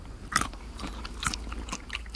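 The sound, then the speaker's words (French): Crisp crunching bites into a fresh, tender, just-harvested pistachio: a few short crackling bursts with softer chewing noises between them, fairly faint, with no voices. “Et croquante. Croquante et on a le goût de la pistache.”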